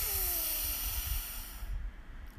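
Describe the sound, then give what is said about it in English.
A deep breath in during a guided breathing exercise, the belly pushed out on the inhale: one soft, airy intake of breath under a steady hiss, fading out toward the end. “So deep breath in, breathe in,”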